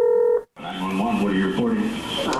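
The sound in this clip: A telephone being dialed to call an emergency number gives a brief, steady electronic tone, then a short silence, then continuous voices.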